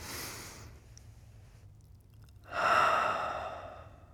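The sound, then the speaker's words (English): Deep breathing, with a soft, airy breath at the start, then a pause, then a longer and louder rushing breath that slowly fades. No talk. “Take a deep breath.”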